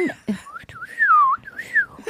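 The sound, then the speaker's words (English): A person whistles a short, wavering tune, the clear tone sliding up and down across a few notes with brief breathy sounds before it. “did you like my whistle? Just I did. I can't whistle. I can't whistle. Neither can I. Actually, I just learned.”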